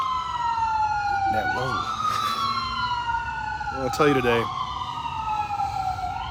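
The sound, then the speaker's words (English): Emergency vehicle sirens wail loudly throughout, with several overlapping tones sliding steadily up and down without pause. “once these sirens stop, which they probably never will”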